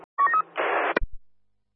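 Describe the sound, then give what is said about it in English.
Telephone keypad dialing tones: a couple of quick beeps, then a longer hissing burst, ending in a few low clicks before silence. “They're dialing now.”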